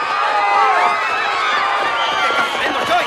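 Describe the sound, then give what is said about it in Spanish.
A crowd fleeing in panic after a shotgun shooting during a religious procession, heard as a dense, steady clamor of many overlapping shouting and crying voices, loud throughout with no distinct pauses. “Un penitente sacó una escopeta y abatió al matón. Un hombre con chaqueta de cuero dispara a los guardaespaldas de Sasa. El penitente huye dejando caer la imagen religiosa. El público huye despavorido.”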